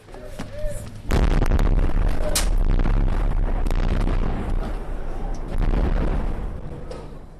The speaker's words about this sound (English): by mid-morning in this part of Homs, the bombs were falling steadily, about a minute apart.